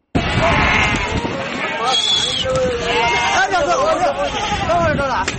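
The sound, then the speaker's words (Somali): Livestock bleat at a live-animal export market in Bosaso, where camels, goats, sheep and cattle are traded. Repeated wavering bleats rise over a dense crowd babble and people talking throughout. “Halkani waa suuqa lagu kala iibiyo xoolaha nool ee loo dhoofiyo dalka dibadiisa, kuwaas oo isugu jira geel, ari iyo lo'.”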